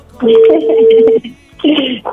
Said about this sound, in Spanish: Vamos, le estamos marcando a Rigo.